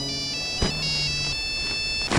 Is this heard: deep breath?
no